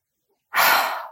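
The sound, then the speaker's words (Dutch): A single calm breath drawn in through the nose during a guided relaxation exercise: a soft, airy rush that begins after a moment of silence, swells quickly and holds steady before easing slightly at the end. “Adem eens rustig in door je neus.”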